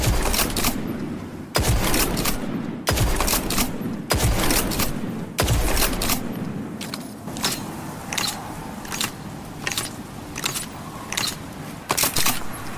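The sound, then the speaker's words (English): A legendary kinetic pinpoint slug shotgun using special ammo fires in a video game. It gives a series of sharp, booming blasts spaced about one to two seconds apart, with mechanical clacks between shots and lighter reports toward the end. “It takes special ammo. And it's a pinpoint slug shotgun. The Blasphemer, and this is what it sounds like.”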